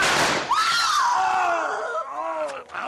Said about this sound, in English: The next bullets will do more than shoot the guns from your hands.